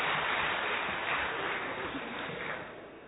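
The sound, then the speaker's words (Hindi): An audience at a health talk claps for itself, a dense, continuous wash of hand clapping that holds steady and then thins slightly toward the end. “Very good, बहुत बढ़िया, अपने लिए ताली बजाएंगे।”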